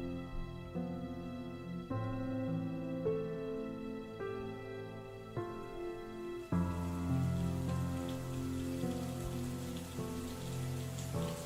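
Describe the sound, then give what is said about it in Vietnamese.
Rain falling outside, a soft, steady patter spread beneath sustained low tonal notes, fairly faint and even throughout with no voices. “Trời sầm tối, ở bên ngoài lại bắt đầu mưa.”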